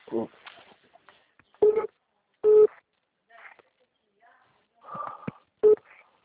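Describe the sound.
Telephone ringing: a few short, steady electronic tone bursts, separated by gaps of near silence.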